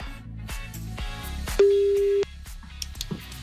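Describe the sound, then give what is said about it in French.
A single steady telephone tone, about half a second long, rings out over a rhythmic background as an outgoing call is placed. “On vous appelle. Et si ça sonne chez vous, que c'est masqué, c'est peut-être nous.”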